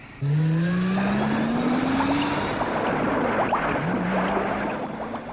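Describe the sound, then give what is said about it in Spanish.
A truck's engine roars as it speeds along while flowing lava closes in on the road. The loud, steady rush carries a rising whine throughout. “Cada vez van más rápido en el camión.”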